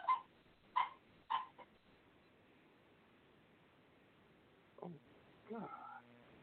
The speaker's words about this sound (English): So who's that noise? Oh, that's my dog, man. Go ahead. Fuck, is he choking?